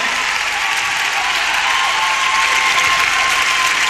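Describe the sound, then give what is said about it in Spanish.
Dense, sustained applause from a concert audience at the Royal Albert Hall, steady and loud throughout with no pauses. “Por favor, fuerte el aplauso para Palau. Bienvenido al Royal Albert Hall.”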